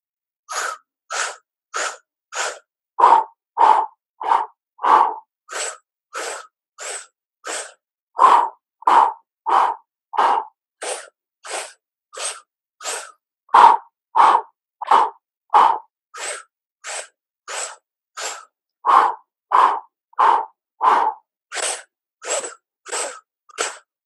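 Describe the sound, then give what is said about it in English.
Forceful breathing through the mouth in a breathing exercise, short sharp inhales and exhales through tight lips in steady sets of four, with many even, loud puffs and no talking. “we're simply going to inhale through the mouth 4 times and we're going to exhale through the mouth 4 times”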